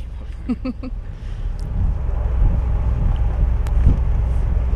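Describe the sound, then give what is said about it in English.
A ferry on the water with wind gusting across the microphone: a steady low engine and water rumble that grows slightly louder after the first second and then holds, with buffeting wind noise over it. “now we're going to record the sounds of the ferry.”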